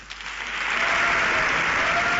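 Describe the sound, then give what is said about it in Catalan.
Audience applause at the Premis Enderroc awards ceremony as the popular-vote awards begin. The clapping is dense and continuous and swells slightly before holding steady throughout. “Aplaudiu.”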